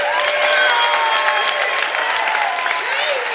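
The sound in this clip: A crowd applauds and cheers, with steady clapping and a sustained roar of voices while a voice speaks over the noise.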